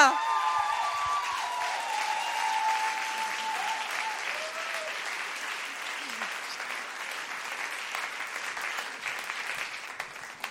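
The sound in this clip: Audience applause greets a dancer: a sustained, dense clatter of many hands clapping that starts strong and slowly thins over about ten seconds.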